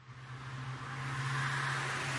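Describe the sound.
A passing car: steady engine drone and broad road hiss with a low hum underneath, swelling slightly over about two seconds.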